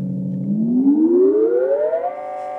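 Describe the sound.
A Moog synthesizer tone starts low and steady, then glides smoothly upward in pitch for about two seconds before settling and holding at the higher note. It is a bright, buzzy, sustained sound, heard alone.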